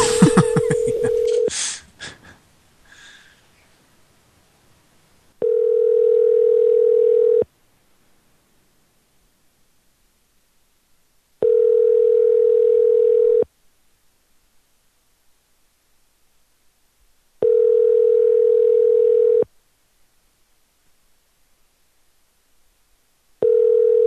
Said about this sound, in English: Let's give him a call.